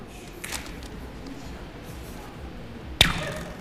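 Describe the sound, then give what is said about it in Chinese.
A rubber band snaps to imitate an arrow being shot, a sharp, brief twang near the end that rises out of a faint, steady background, with a softer click earlier on. “就是皮筋模拟出来的声音”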